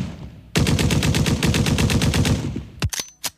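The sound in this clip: Rapid automatic gunfire in a rap track: a loud burst of evenly spaced shots runs for about two seconds, followed by a few separate sharp shots.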